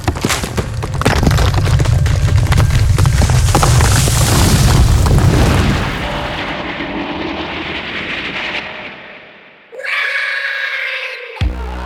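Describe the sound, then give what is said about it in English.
Bombs dropped from above explode on slimy, bug-eyed monsters in a loud, sustained booming roar that rumbles for several seconds, then thins and fades, followed near the end by a brief, bright tonal sound. “Hey! Up here, you slimy bug-eyed pests! Bombs away!”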